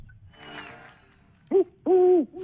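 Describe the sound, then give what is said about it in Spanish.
A human voice imitates an owl hooting: one short hoot, then a longer, sustained hoot. Both are clear and fairly loud against a quiet background. “¡Vamos con el búho! ¡El búho! ¿Cómo hace el búho?”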